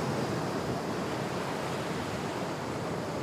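Sea waves breaking in a steady, unbroken roar of surf that holds a constant loudness throughout, with no voices.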